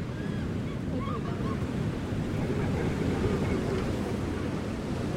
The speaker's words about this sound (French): Comme vous l'entendez, les nouveaux chemins ne sont pas en studio cette semaine mais au bord de la mer Méditerranée. À Tel Aviv, très exactement, nous avons posé nos micros le temps d'une semaine